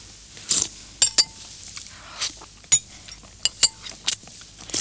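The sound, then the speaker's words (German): Two people eat soup in a radio play scene, with many sharp, irregular clinks of spoons against bowls and dishes over near quiet. No one speaks. “Der junge Mann aus der vorigen Szene und eine junge Frau essen Suppe.”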